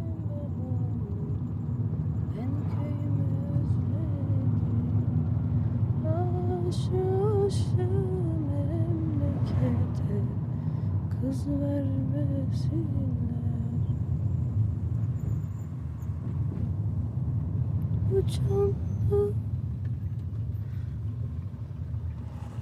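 A car drives along with a steady, continuous low engine rumble that holds level throughout, with a few faint higher sounds over it.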